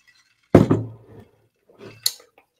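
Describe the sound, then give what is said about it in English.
A drink is stirred in a glass mason jar. There are a few sharp glassy knocks, then softer scraping and one final bright clink, with no talk. “Stir that up. And we drink it out of mason jar because we country.”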